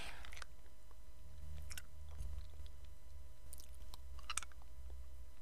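Chewing on a mint and honey flavored hard candy: a few soft, irregular crunches and moist mouth sounds over a low steady hum.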